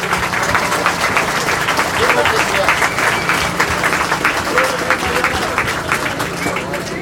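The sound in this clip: Audience applause welcoming a band on stage at a peace demonstration: dense, steady clapping that holds an even loudness for the whole stretch.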